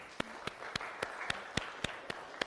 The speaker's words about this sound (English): Can we give them a big clap of thank you for all that they do behind the scenes week in,